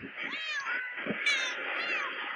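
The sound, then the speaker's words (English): Cats meowing in a few drawn-out, wavering calls that overlap and rise and fall, fairly faint and steady throughout, with no talking. “I was dying at the cats doing that whole thing, just meowing.”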